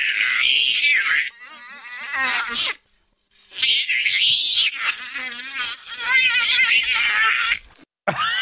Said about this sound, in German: Das war ein Kampf zwischen einer Mücke und einer Katze.